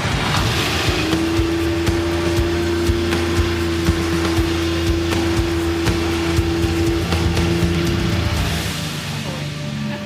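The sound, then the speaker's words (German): An outboard motor drives a 4x4 metre floating platform boat across the water with a loud, steady droning hum and constant rough wind buffeting. The engine noise eases slightly at the very end. “Also wir stehen jetzt hier auf einer 4x4 Meter großen Plattform, ungefähr 16 Quadratmeter, an der ein Außenbordmotor befestigt ist. Und jetzt fahren wir rüber zur schwimmenden Photovoltaikanlage. Genau. Alles klar, dann gib Gas.”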